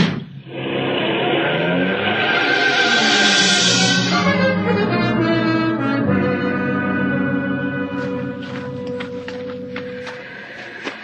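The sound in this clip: A taxi cab's engine roaring as it drives off fast. The loud engine note climbs in pitch over the first few seconds, then drops and carries on as a steady drone, with no voices.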